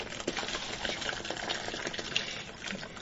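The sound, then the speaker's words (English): Water pours into a home-brewing mash tun as a continuous rushing, bubbling gush that holds an even level throughout without pauses. “So we got one more quart of water to go in the mash tun.”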